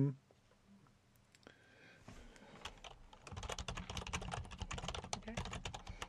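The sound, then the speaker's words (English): Computer keyboard typing comes through a participant's microphone during an online session: many rapid, faint clicks that build up and continue to the end, with a brief voice at the very start. “that explains the keyboard sounds we were getting”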